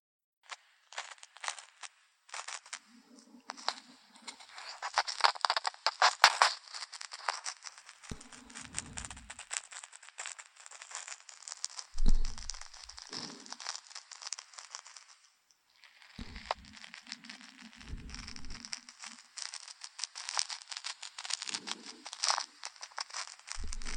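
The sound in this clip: Close, faint ear-cleaning ASMR: soft crinkling and scratching textures that come in irregular bursts and pauses, with occasional low, muffled rubbing thumps.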